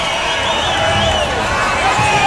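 Audience applause and cheering for the singer Paula Fernandes at a live show. The crowd roars loudly and steadily, with high wavering shouts rising over the clapping.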